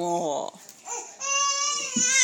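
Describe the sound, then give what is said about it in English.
A young girl in a tantrum wails loudly in high-pitched bursts of crying with short breaks between them. The longest and most strained cry comes last. “Oh, she's having a tantrum.”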